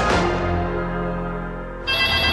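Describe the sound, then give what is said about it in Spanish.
An intercom rings with a loud, sustained electronic tone that fades slightly, then switches abruptly to a brighter, buzzier tone near the end. No voices are heard. “¡Contesta tú el citófono, que estoy ocupada!”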